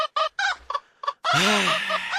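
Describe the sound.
A rooster calls, first with a few short, clipped clucking bursts, then one long, loud crow with a rising and falling, strongly harmonic tone that carries on to the end, with no talk.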